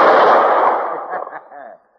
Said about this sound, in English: Gun in your holster, son, and eyes shut till the bottle's in there. All right. Draw!